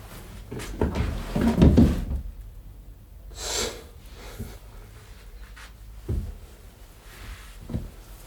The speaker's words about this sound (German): Zehn Schubladen hatte ich wohl schon aufgerissen.